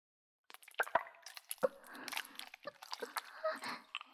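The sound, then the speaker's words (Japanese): Wet, squishy soaping sounds as a body is washed with soap, starting at the chest. Many small slick squelches, drips and light taps follow in an irregular patter, faint and with no voices. “ご主人様のお体を洗わせていただきます。まずは、お胸から失礼いたします。”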